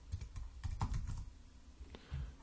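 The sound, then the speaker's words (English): Faint typing on a computer keyboard, a quick run of soft clicky keystrokes in uneven bursts with a short pause before a few final taps. “And you type in gardening forums.”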